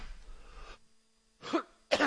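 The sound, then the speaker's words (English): Two sharp coughs right into a microphone, loud bursts close together that come after a stretch of near silence, with no talk around them. “Sorry about coughing in the mic.”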